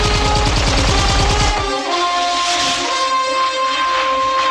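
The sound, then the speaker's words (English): Guards fire at a skier weaving down a mountain slope at night in a film: a loud, fast burst of repeated shots lasting over a second, then sustained hissing and high whistling tones. “Blofeld's guards turn on a spotlight. They fire as Bond weaves his way down the slope.”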